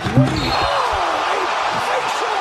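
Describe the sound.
A basketball dunk sound effect lands as a sharp thud near the start, followed by people talking over a steady background wash.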